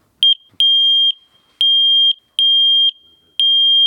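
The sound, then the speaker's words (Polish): A multi-gas detector alarm, used to check rooms after a fire, beeps loudly in a high, steady tone: one short chirp, then four longer beeps of about half a second each, evenly spaced. “No i właśnie ten dźwięk oznacza, żeby się ewakuować z budynku. Małe urządzenie, które może w najszybszej chwili przekazać informację, żeby się ewakuować z mieszkania”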